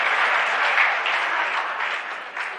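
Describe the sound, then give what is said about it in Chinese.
Dense, sustained applause from a standing audience celebrating a Chinese player's 3-0 win over a Japanese opponent at a match: continuous, loud clapping that stays even throughout, with a brief dip near the end. “庄则栋以3-0淘汰了日本队员高桥浩，这是全场观众再次起立为我们中国队员取得最后的胜利而欢呼”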